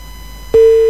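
Telephone busy tone after an incoming call is cut off: a loud, steady single-pitched tone starts abruptly partway through and holds, preceded by a quieter buzzing line hum.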